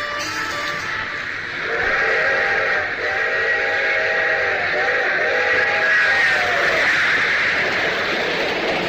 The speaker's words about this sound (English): A string of freight cars crossing a dusty stretch of lonely farmland.